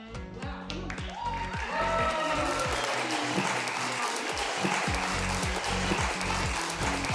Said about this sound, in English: But I need you to get loud. Put your hands together, because we're going to be live in the studio audience in three.